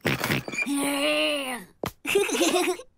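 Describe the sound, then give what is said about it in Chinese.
A child's voice imitates a dinosaur roar: a long, wavering, moaning cry that sags in pitch at its end, then a short breath and a second rougher, growling cry. “这是什么声音呀？听上去像一头恐怖的怪兽。 恐龙。 啊，是一头恐龙。”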